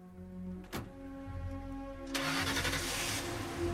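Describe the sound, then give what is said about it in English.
An old model car starts and pulls away. A sharp knock comes early, then engine noise swells after about two seconds and holds steady and fairly loud to the end over a low hum. “Mort looks at the license plate as the car pulls away.”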